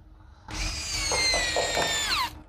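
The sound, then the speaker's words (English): A power drill drives screws into window frames in one loud, roughly two-second whining burst at a high, steady pitch that drops away as the motor stops. “drilling the windows shut, leaving crooked screws sticking out of the window frames”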